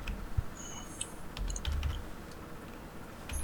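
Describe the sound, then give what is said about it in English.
Typing on a computer keyboard: a quick, irregular run of light key clicks, fairly quiet, with a low background hum and no voices. “I don't get to type intimidation too often”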